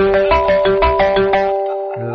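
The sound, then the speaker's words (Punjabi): A telephone rings with a melodic electronic ringtone: a loud, quick run of bright repeated notes in a steady rhythm that breaks off briefly and then resumes. “Telephone ਹੀ ਆ ਗਿਆ।”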